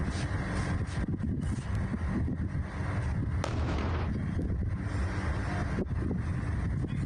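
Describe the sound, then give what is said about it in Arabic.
Violent explosions and strikes deep inside Iran, heard as a continuous heavy rumble with a few sharp blasts cutting through, loud from start to finish. “انفجارات عنيفة وضربات غير مسبوقة طالت عمق الجغرافيا الإيرانية”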